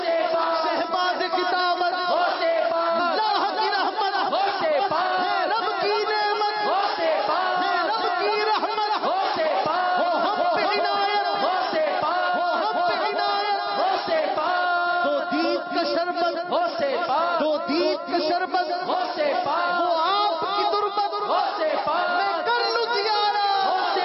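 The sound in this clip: Crowd voices chanting devotional slogans in praise of Ghaus Pak, a continuous, tonal unison chant with pulsing syllables that stays loud and even for over twenty seconds.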